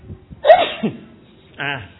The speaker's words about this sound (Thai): จามอะไรด้วย